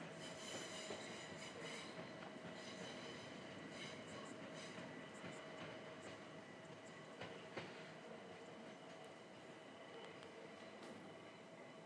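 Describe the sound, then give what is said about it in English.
A train pulls into a station, heard as a steady rumbling roar with high metallic squealing and some clatter from the wheels, fairly faint and continuous with no voices. “The train. No announcement, but I'm assuming it's to Richmond.”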